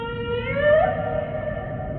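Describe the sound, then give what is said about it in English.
Humpback whale vocalization: a long, tonal moaning call with stacked harmonics that bends slightly upward in pitch, steady and moderately loud over a low rumbling background. “That's the sound of the humpback whale.”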